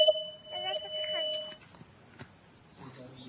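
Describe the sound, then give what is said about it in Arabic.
A steady electronic tone as a phone call drops, holding for about a second and a half before cutting off, followed by faint scattered sounds and low voices. “انقطع اتصال.”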